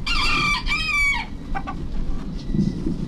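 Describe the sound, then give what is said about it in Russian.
A rooster crows once, a loud, bright, harmonic call of about a second, broken into two parts, then fainter low background noise follows. “Это Петя Петушок поздоровался с нами.”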